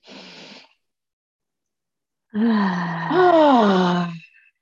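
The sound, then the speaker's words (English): A big cleansing breath during a guided relaxation: a short breathy inhale, then a pause, then a long, loud, voiced exhale that slides like a groaning sigh before fading. “Take one big cleansing breath and then gently bring yourself up.”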